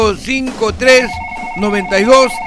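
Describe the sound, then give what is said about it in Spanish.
A telephone rings with a steady electronic tone that starts partway through, held beneath loud, continuous talk. “el teléfono suena permanentemente”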